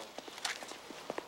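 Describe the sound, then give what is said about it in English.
Brisk footsteps as Doc strides to his van, a quick uneven series of soft thuds and scuffs. “Frowning, Doc strides to his van.”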